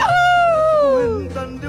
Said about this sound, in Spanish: aullido.